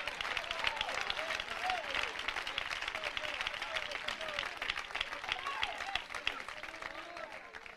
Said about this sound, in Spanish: Oiga, ese aplauso es para Donald Trump, hermanos.